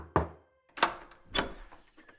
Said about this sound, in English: I awoke to a knock on the door, firm and insistent.